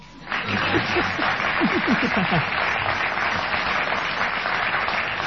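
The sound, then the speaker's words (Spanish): Audience applause rises quickly from near silence and settles into a loud, steady wash of clapping that holds evenly until the end. “Ahora sí hay que aplaudir”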